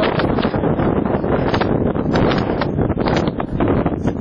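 Wind blows across a dusty desert in Helmand, Afghanistan, as a loud, continuous, roaring rush of noise that buffets steadily throughout with no pause.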